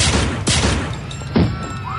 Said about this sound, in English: Jesus, you just shot her in cold blood.